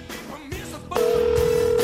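A telephone rings with an incoming call, a loud, steady electronic tone cutting in partway through and holding at one pitch over softer background sound.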